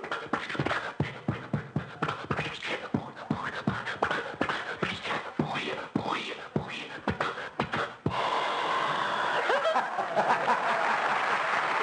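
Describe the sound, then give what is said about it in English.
A man's voice imitates an old Maxwell car sputtering and coughing as it tries to start, in choppy rhythmic bursts for about eight seconds. A TV talk-show studio audience then breaks into steady applause. “So I said, get the Maxwell started. And he would go out, and you'd hear the Maxwell, and this would be it.”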